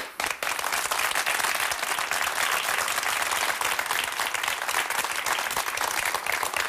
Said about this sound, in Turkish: Ben de alıştım abi alkışlara vallahi. Böyle enteresan oluyor. Bir süre sonra bağımlılık yapıyor bunlar.